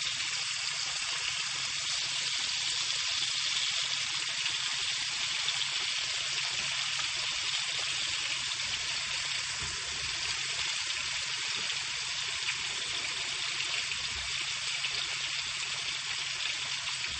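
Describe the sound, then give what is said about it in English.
Meat frying in a pan, cooked in batches, gives a steady, dense sizzle that hisses evenly and loudly throughout, with no voices over it. “So the meat is in.”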